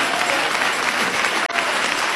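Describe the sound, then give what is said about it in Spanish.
A church audience applauds during a worship service of praise. Dense, steady clapping from many hands continues loud through the whole clip, with one brief dip near the middle. “Dale ese aplauso de alabanza a Cristo.”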